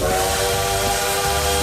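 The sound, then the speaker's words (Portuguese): A bullet train passes with a steady, loud whistle blowing over a rushing hiss for under two seconds. “E a trem bala passando.”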